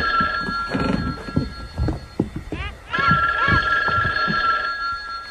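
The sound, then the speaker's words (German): A telephone bell rings for a long-distance call, a bright, metallic trill repeating in bursts through the whole stretch and mixed with busier, rustling sounds at the start. “Ein Ferngespräch. Ein Anruf für Robert Andrews.”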